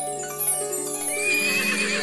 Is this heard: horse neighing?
yes